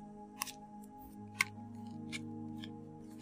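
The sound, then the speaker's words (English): A tarot card popping out of a deck, a few short sharp snaps and clicks, with the clearest one near the middle, over a soft steady tonal hum. “Oh, that one kind of didn't fly out like they do on these fake tarot readings I see. But it kind of popped out.”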